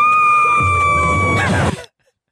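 A woman screams loudly in one long, sustained burst of excitement at finding a hidden idol in a game. The high pitch holds steady, then breaks up and cuts off abruptly.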